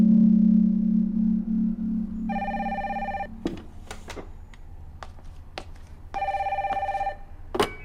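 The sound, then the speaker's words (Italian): An incoming call makes a telephone ring in two bright, trilling bursts separated by a pause with a few sharp clicks and knocks. A low steady tone comes before the rings. “Sì? È la reception, professor Sagan. Chiamata per lei da New York.”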